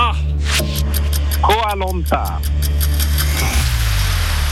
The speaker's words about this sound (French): Je suis dans la rue, là, il y a un peu de bruit, alors j'essaye de faire mon mieux pour bien entendre la question.